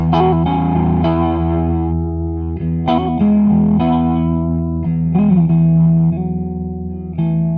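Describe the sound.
Electric guitar played through a 212 combo amplifier, a steady run of ringing notes and chords with a processed, somewhat distorted tone that sustains between a few sharper attacks, loud and alone without talk.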